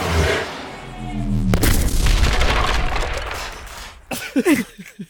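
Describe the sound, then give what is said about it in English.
A single booming gunshot in a video game: a sharp, loud crack about a second and a half in, trailing into a long rumbling decay, with other tonal game sounds before it and short bursts near the end. “I'm going to fucking shoot it. No, really? Yeah, I'm going to fucking shoot it. Send it!”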